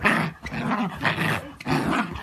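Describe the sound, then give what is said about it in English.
A dog growls while playing tug-of-war with a rope, giving several rough, rumbling bursts separated by short breaks, loud and alone with no talking. “And that's how I keep my pup busy when the weather sucks. Don't worry, we're playing the pull the rope game. He's totally gentle.”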